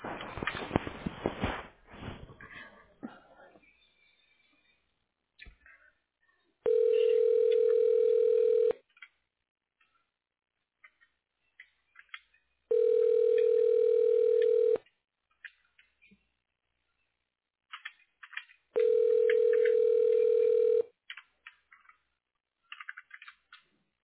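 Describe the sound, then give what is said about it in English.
Three long, steady telephone tones sound at even intervals while an office call is transferred to voicemail. Faint clicks and rustling come at the start and between the tones. “I can transfer you to her voicemail. Yes, please. Okay. Hold on, please.”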